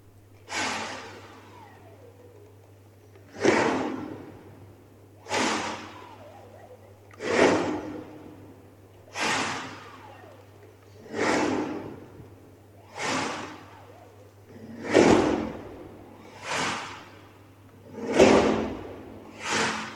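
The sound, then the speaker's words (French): Breathy rushes of air from a bandoneon's bellows in an experimental sound piece: about a dozen soft, hissing swells at a slow, fairly even pace, each rising and fading like a breath, over a faint low steady hum. “c'est une expérimentation sonore sur le souffle du bandoneon”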